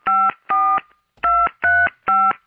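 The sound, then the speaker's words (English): Touch-tone telephone dialing: five short, crisp two-note beeps at an even pace, with a longer pause after the second beep, sounding loud and clean against silence. “I'm going to pick up the phone and call the police. Today, November 16th, 1963, the Touchtone phone”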